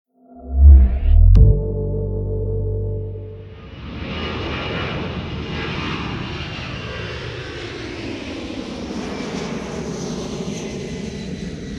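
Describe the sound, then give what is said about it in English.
Airliner on a flight from Heathrow, approaching Dulles International Airport: a brief low tone and a sharp knock give way to a steady, broad engine roar that holds evenly to the end. “Operation Overleaper, approaching Dulles International Airport. Leap Day 2. The second flight from Heathrow to DC is no better than the first.”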